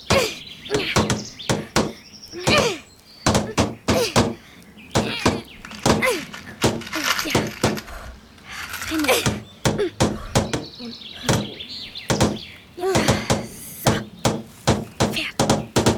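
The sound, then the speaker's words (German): A sail is nailed onto a toy pirate ship with many sharp, irregular knocks and hollow thunks spread across the whole stretch, some in quick bursts and others spaced apart. “Als die Farbe getrocknet ist, nageln Max und Pauline das Segel mit dem Totenkopf an.”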